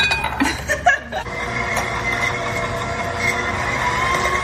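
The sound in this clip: Ingredients are beaten in a mixing bowl: a few light clinks of utensil against bowl come first, then a steady, continuous churning drone.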